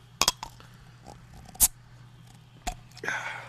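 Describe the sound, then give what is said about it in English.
Opening a beer bottle: a few sharp clicks, then a brief loud pop, followed by a soft fizzing hiss. “Every time I open a beer in this office, I'm going to be like, oh, dude, don't blow up on me.”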